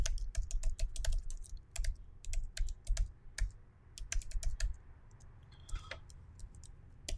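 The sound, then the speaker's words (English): Typing on a computer keyboard: many quick, irregular keystroke clicks in bursts, with a brief lull partway through before the tapping resumes. “And if you guys need some, I'm going to type it in here.”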